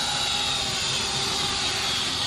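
A camera drone buzzes in flight over open landscape. Its loud, steady, high-pitched whir and rushing whine hold without a break from start to finish, with no voices.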